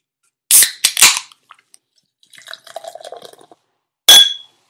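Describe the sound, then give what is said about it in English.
Glasses clinking in a toast sound effect: a few sharp, bright clinks close together, then a faint stretch of light tinkling, and one more loud ringing clink near the end. “let's go ahead and do what we normally do and toast this one.”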